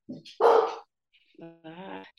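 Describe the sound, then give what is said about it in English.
A dog barks a few times in quick, uneven bursts, with one loud sharp bark followed by higher, drawn-out yelping cries. “Oh, here we go. There's this dog.”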